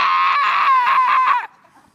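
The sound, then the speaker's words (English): One voice lets out a long, piercing shriek, imitating more than 200 people screaming together during a group prayer. It holds for about a second and a half, then cuts off sharply into near silence. “if you've never been in a room with 200 plus people shrieking, I pray you never are.”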